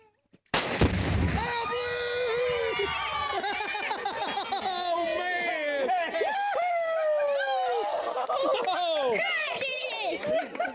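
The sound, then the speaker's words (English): A high-powered rifle shot hits a small box of explosive pink or blue chalk at a gender reveal party. One sharp blast is followed by a long stretch of excited, overlapping voices shouting and cheering. “Couples pack a little box of explosive pink or blue chalk and then shoot it with a high-powered rifle. Let's hear a clip from YouTube.”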